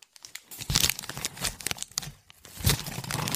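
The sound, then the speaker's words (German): Paper crinkles and tears as a gift wrapped around a square cardboard box is opened, with a dense, continuous rustle broken by louder crackling bursts. “du kannst ja jetzt mal dein Geschenk aufmachen.”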